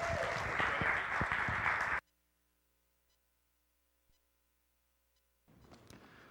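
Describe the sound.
Warm applause from a church audience at Hillside welcoming a guest speaker who teaches as an adjunct professor at Pacific Life Bible College. Loud, dense clapping lasts about two seconds, then cuts to near silence before a quieter burst of noise returns.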